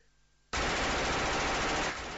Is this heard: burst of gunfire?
yes